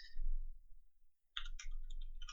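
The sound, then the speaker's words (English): Typing on a computer keyboard while searching for a used 4Runner. A low rumble fades to near silence, then a quick run of crisp, bright key clicks sounds over the returning rumble. “type in 4Runner here. See what comes up.”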